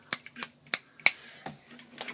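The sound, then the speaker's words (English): Finger snaps stand in for applause after a free jazz performance, a handful of crisp, sharp clicks at uneven intervals with nothing else around them. “When you like jazz, you don't applaud. You go snap, snap, snap, snap, snap.”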